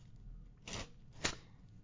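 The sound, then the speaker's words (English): Playing cards are shuffled by hand during a card magic trick: two short, faint riffling bursts, the second sharper, with near-silence around them. “He's shuffling the cards.”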